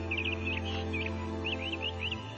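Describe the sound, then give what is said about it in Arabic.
A colourful bird sings in faint, high chirping twitters and short trills over a steady low droning hum. “هذا الطير الملون ما غيره قاعد أسمع صوته من هني يا زين صوته”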